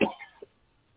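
A short throat clearing from a dry throat: one rough, fairly loud burst right at the start, then a single faint click and near silence.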